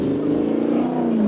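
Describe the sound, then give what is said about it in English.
A Toyota 5-liter engine fitted with Yamaha cylinder heads revs in a loud, continuous roar. The deep, dense drone holds steady, its pitch easing slightly downward over the brief moment. “And that is the sound of a Toyota 5-liter engine with Yamaha heads.”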